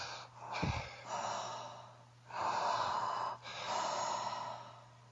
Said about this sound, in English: So we're breathing in vigorously through your mouth.